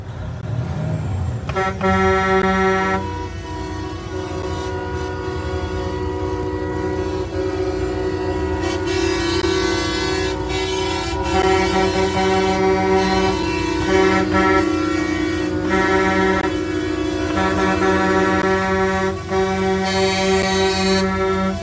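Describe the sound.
Trucks of the 2022 Canadian convoy honk as they leave Thunder Bay. Loud, long air-horn blasts overlap continuously over a rumbling traffic and engine bed, with the horns swelling and shifting for the whole stretch.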